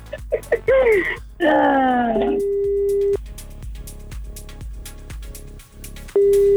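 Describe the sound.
A telephone call tone rings unanswered as long, steady electronic beeps, one ending midway and another starting at the end, preceded by a wavering, moaning voice-like sound over a pulsing background.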